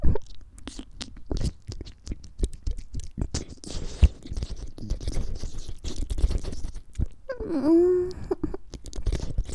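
Someone chews food with many quick, crunchy, wet bites and clicks in an uneven rhythm, and a brief voiced hum comes near the end.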